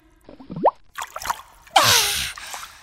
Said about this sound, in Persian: دوباره میرم زیر آب نفس بگیرم، زود میام.